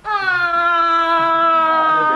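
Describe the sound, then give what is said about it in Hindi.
A girl cries loudly in one long, sustained wail that stays at a fairly steady pitch throughout, with no pauses. “रोती क्यों जा रही हो? कुछ बताओ तो सही, आखिर हुआ क्या है?”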